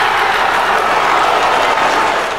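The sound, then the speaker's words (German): A loud, unbroken roar of cheering from the Brazilian delegation in Copenhagen as Rio de Janeiro is awarded the 2016 Olympic Games, a dense crowd sound holding steady and dipping slightly at the end. “Grenzenloser Jubel bei der brasilianischen Delegation in Kopenhagen, grenzenloser Jubel in der brasilianischen Metropole am Zuckerhut.”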